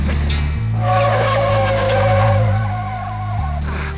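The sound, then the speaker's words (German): A Volvo car skids and brakes hard: a long, wavering tire squeal rides over a low engine drone for about three seconds, then cuts off abruptly. “Achtung, der Volvo gerät ins Schleudern. Ah. Er macht eine Vollbremsung.”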